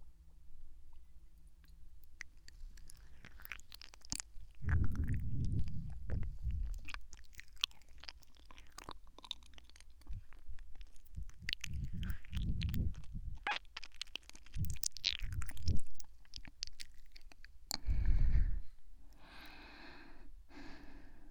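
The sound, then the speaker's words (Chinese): Someone eats medicine with soft, wet chewing and biting sounds, broken by snorts and breaths. The faint, irregular noises continue for about twenty seconds. “好了， 还剩下些，乖乖都吃了吧。”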